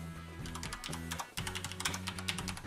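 Rapid typing on a computer keyboard while an email address and phone number are entered into a web form. Crisp, bright keystrokes come in quick irregular runs, with a short break near the middle, and no other sound.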